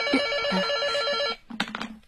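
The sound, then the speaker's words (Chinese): A telephone bell rings at a criminal police desk, a bright, steady trilling burst lasting over a second that cuts off abruptly. A few short knocks and clicks follow. “要是电话再来，你来接啊。”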